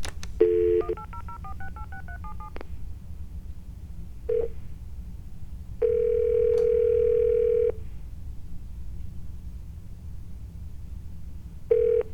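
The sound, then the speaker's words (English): Telephone keypad tones while dialing a toll-free 1-800 number: a brief tone, then a quick run of many short stepping beeps, followed by a few longer, steady electronic tones separated by silence. No talking. “You have dialed a number that is not available from your calling area.”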